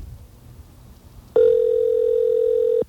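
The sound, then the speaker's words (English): A steady telephone ring tone sounds on a call to a voicemail system. It is a single loud, unbroken ring lasting about a second and a half, with faint low background noise before it. “This ring could be anything, but if it's our voicemail system, you'll hear our unique error message, which will come after the next ring.”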